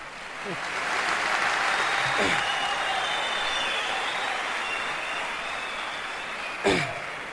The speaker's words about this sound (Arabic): صفق. يلا